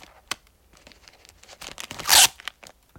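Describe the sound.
Tearing open the sealing strip of a plastic bag of candy: one loud, sharp rip about two-thirds of the way through, with light crinkling and small crackles before and after.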